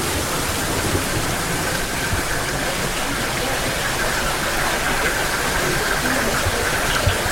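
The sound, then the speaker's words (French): Spring water trickles over wooden shelves in a tufa cave, a steady, dense hissing rush that stays even from start to finish with no voices. “Nous sommes face à un cristallisoire, des étagères en bois sur lesquelles ruisselle l'eau des sources.”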